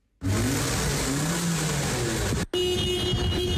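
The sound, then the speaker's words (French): Car engines running at a vehicle inspection centre as vehicles pass through, a loud, steady mid-pitched drone that cuts out briefly before resuming with a steadier hum. “Nous sommes à Plaine-Leuzon dans un centre de contrôle technique où plus de 300 véhicules passent chaque jour leur fitness.”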